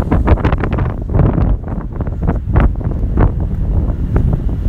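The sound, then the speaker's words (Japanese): Strong wind buffets a microphone with loud, rumbling low gusts and irregular bursts throughout. No voices. “多分今風強かったんでちょっと黙ってましたけど”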